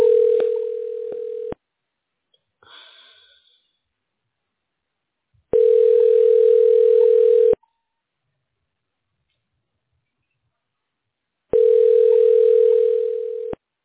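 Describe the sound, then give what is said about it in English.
A telephone line tone sounds as a call is dialled. A steady mid-pitched tone comes in three long bursts of about two seconds, with silent gaps between them and a faint brief noise in the first gap. “Dialing.”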